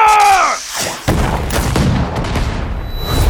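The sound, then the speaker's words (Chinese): Ship's cannons fire in a pirate sea battle: a heavy boom breaks in after a brief tonal sound and gives way to continuous rumbling, crackling blasts that stay loud to the end. “对方已经进入射程了，还击，还击！ 是， 炮手预备。 炮手预备， 开火！”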